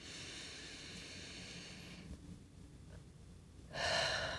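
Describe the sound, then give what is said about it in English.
A deep breath taken while settling into a quiet moment before journaling: a soft, airy rush of breath that carries on steadily, then swells into a louder, brighter burst near the end. No talk. “Take a deep breath.”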